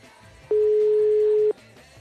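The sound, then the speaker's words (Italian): A single steady telephone ring tone, a plain mid-pitched hum held for about one second and then cut off, standing alone over faint background noise. “Ma è il mio telefono che suona, è un altro telefono.”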